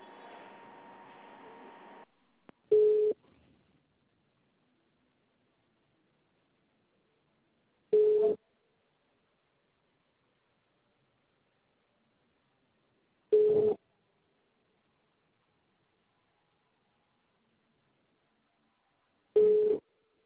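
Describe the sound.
Telephone signal after a dropped call: a steady tone, then four short beeps spaced several seconds apart, with silence between them.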